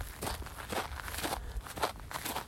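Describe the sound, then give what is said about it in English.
Footsteps crunch over ground burned in a controlled burn at Wilder State Park, a few soft, steady steps at an even walking pace, fairly faint. “walking on the controlled burn here in Wilder State Park.”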